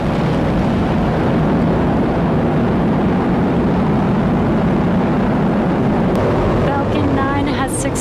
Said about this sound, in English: Go SpaceX, go IM-1 and the Odysseus lunar lander. Vehicle pitching range. Stage 1 propulsion is nominal.